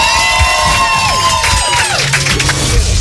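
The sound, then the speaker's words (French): An audience at a live show cheers loudly in a continuous crowd roar, with high shouts and whoops rising and sliding down in pitch over the din. “Vous pouvez applaudir s'il vous plaît, faire du bruit en même temps.”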